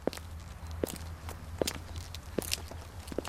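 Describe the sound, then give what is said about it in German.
Footsteps placed slowly and carefully on the ground, about five soft, evenly spaced steps, quiet and alone over a faint low background hum. “Was Sie da hören, sind behutsam, langsam auf die Erde gesetzte Schritte. Dann schnellere und wieder langsame”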